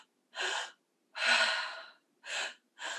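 Quick, breathy inhales from a breath-work exercise that draws air into the belly: several sharp airy breaths with short silences between, one noticeably longer than the others, and no talking.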